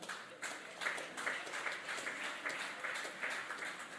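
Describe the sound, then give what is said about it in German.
Restrained applause from an audience: a quiet, steady patter of light, scattered clapping that holds at an even, subdued level throughout, with no cheering. “Verhaltener Applaus.”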